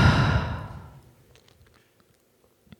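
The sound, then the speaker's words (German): A slow breath out through the mouth during a guided breathing exercise, a soft, airy exhale that starts fairly strong and fades away over about a second, leaving near silence. “Atme über deine Nase ein und über deinen Mund gerne aus. Tu das nochmal, atme ein und aus.”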